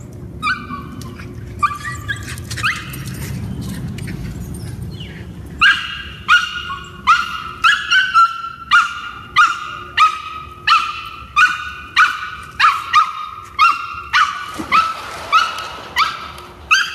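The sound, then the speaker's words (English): A rescued former street dog barks in a long, steady run of many evenly spaced, sharp barks, each with a clear mid-pitched tone, repeating at a regular rhythm without any talk. “that's our dog Level. We adopted him, well, we really rescued him from the streets.”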